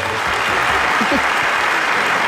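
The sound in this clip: Audience applause, a loud, dense patter of clapping that holds steady throughout, with a voice briefly rising over it partway through.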